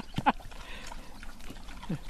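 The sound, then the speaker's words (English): Piglets and their mothers eating apples, with short grunts, snuffles and a few sharp squeals over soft wet munching. “And then 2 turned out to be unexpectedly pregnant and we have 8 little piglets. Oh, look at the babies. Look at them eating the apples. So sweet. Oh, look at the mothers taking the apples from them.”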